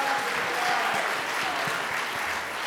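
A crowd applauds the contestants of an ugly Christmas sweater contest, a full, sustained roar of clapping hands at an even, loud level from start to finish.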